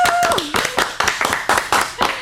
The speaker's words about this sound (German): Und ich glaube, es ist auch noch einen dicken Applaus werden. Das können wir eigentlich jetzt gleich machen.